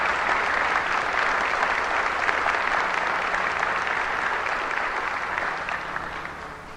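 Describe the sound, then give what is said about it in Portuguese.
Audience applause at a religious sermon: a dense, even wash of many hands clapping that holds steady for several seconds, then tapers off slightly toward the end, with no voices over it. “Um aplauso é para você em primeiro lugar.”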